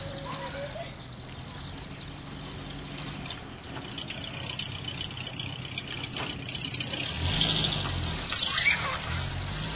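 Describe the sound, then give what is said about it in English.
A car engine idles and then pulls away as the car backs out and drives off, a steady rumbling drone that grows louder toward the end. “Well, think about it while you're driving, will you? I want to hit New York sometime this month. Now, watch out for the kids when you're backing out.”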